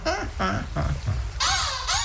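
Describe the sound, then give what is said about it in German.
A black-headed gull (Larus ridibundus) gives its laughing call: a few harsh, cawing, harmonic-rich notes in quick succession, loud and close together. “die, die immer so schön lachen kann. Larus redibundus.”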